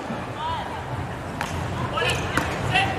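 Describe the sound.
A flat volleyball serve is struck during a China versus Italy match: a few sharp ball impacts cut through steady crowd hubbub and arena noise.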